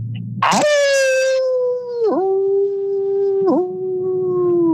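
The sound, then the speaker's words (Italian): A long howl that opens with a harsh, high burst and then settles into a sustained, clear wavering tone, dipping briefly in pitch twice before carrying on, loud and alone. “E adesso sentite il vostro bello allulato.”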